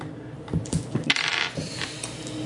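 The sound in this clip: Dice rolled for a tabletop role-playing game, a quick series of hard clicks and rattles as they tumble and settle, fairly quiet and with no talk over them.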